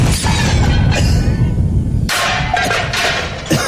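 A grenade explosion: a loud, rough blast of noise rumbles for about two seconds, then breaks into a second sharp, bright burst that fades unevenly.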